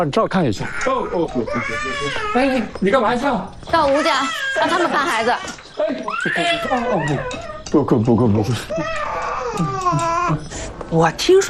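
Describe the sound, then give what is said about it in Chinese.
A baby crying in repeated wails while an adult talks soothingly over it, the crying and the voice overlapping throughout. “哦，不哭啊，不哭，乖乖乖乖，嗯，不哭不哭，哎，不哭，哎呀，哎呀，不哭”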